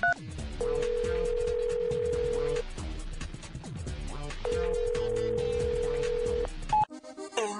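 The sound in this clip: A telephone call goes unanswered: two long, steady ringback tones, each about two seconds, sound over background music before the line cuts off.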